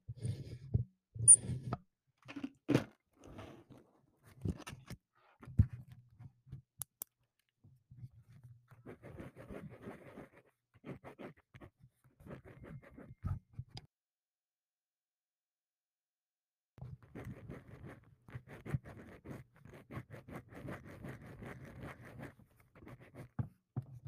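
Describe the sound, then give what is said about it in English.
Scratchy strokes of drawing on paper come in quiet, intermittent bursts, with a silent pause midway before a denser run of rapid strokes resumes. “Do some drawing ASMR.”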